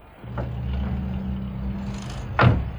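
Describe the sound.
A car engine starting and running, with a low, steady rumble that holds for a couple of seconds before a brief, louder surge near the end.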